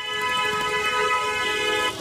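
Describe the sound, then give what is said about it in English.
Heavy, clogged rush-hour road traffic with car horns honking, sustained horn tones layered over a steady wash of traffic noise for the whole stretch. “It makes Seattle's rush hour traffic look like a cakewalk. It's clogged.”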